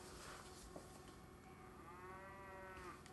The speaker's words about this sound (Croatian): Počinje film sa kravljim mukom.